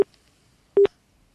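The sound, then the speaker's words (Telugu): Telephone busy tone after a call disconnects: a short, low-pitched beep over near silence, with the clipped tail of an earlier beep at the very start. “Call cut అయిందండి.”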